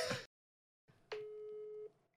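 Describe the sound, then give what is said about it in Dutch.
A single steady ringing tone from an outgoing phone call on loudspeaker lasts a little under a second. A short burst of noise and then silence come before it. “Wacht, ik ga ook hem even bellen met luidspreker?”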